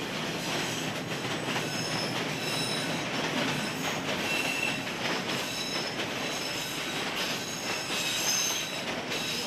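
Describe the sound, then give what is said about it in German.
Steady, loud rumble of a 2000 hp Alstom diesel-electric locomotive running with its train, continuous throughout, with high metallic wheel squeal and hiss layered on top and no voices. “Die 2000 PS starke dieselelektrische Lokomotive stammt aus dem Hause Alstom.”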